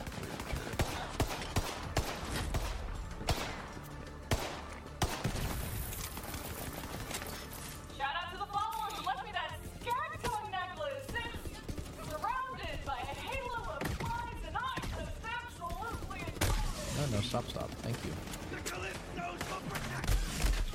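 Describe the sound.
Rapid gunfire from the video game Borderlands 3 rattles in many sharp shots and bursts, mixed with other game effects, while people talk over the action.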